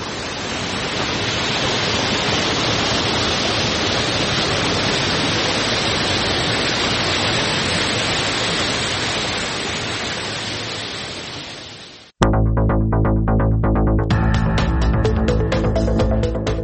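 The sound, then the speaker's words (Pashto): The Mazar Baba spring in Uruzgan, Afghanistan, pours as a steady, loud, hissing roar of flowing water for about twelve seconds, then cuts off abruptly and gives way to music. “د اروزګان د مزار بابا په نوم دا چینه د دې ولایت یوه له مشهوره تفریحي او تاریخي سیمو څخه ده چې د ښکلي طبیعت او یخو اوبو په لرلو سره د خلکو لپاره د آرامۍ او ساتیري یو غوره ځای دی.”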